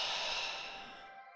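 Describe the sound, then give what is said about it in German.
A slow breath is let out as a soft, airy hiss that gradually fades, part of a guided exercise of breathing in through the nose and out through the mouth; faint and alone. “Atme durch die Nase ein und durch den Mund wieder aus.”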